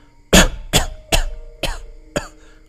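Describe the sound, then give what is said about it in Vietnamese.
A man coughs violently, five harsh, evenly spaced coughs, the first the loudest, each a sharp burst with a rasping tail and nothing else in between. “Chu Khiếu Thiên còn chưa dứt lời liền kịch liệt ho khan.”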